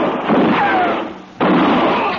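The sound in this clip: Rifle shots in a gunfight: two loud, rough bursts of noise, the second cutting in abruptly after a brief lull, on a hissy, band-limited recording.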